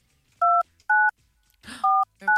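Telephone keypad dialing: four short, clean dual-tone beeps, each a distinct pitch, with uneven gaps between them. A brief soft rustle comes before the third beep.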